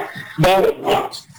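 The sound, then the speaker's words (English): A dog barks, giving a couple of short, sharp barks with a slightly whiny edge over low background noise. “kind of dog you got”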